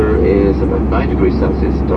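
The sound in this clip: Steady, loud engine drone of an airplane in flight, heard inside the cabin on a westbound trip, a constant low roar with muffled voices murmuring over it.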